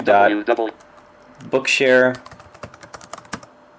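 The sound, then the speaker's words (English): Typing a web address into a web browser's address bar on a computer keyboard: a voice speaks first, then a quick run of many light key clicks follows alone. “So the first thing we want to do is go to our address bar with Alt-D and type in”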